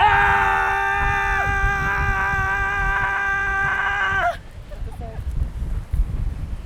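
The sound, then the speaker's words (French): A person gives a long scream in wide open spaces. The voice is loud and held at a fairly steady, high pitch for about four seconds, then cuts off abruptly, leaving only low rumbling background noise. “Et alors voilà, je crie. Je crie dans ces espaces infinis qui donnent envie de tout lâcher.”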